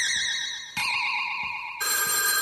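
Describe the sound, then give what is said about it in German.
A telephone rings with a bright, trilling tone that keeps sounding for about two and a half seconds and gets louder in two sudden steps, with no voices. “es klingelt jetzt das Telefon”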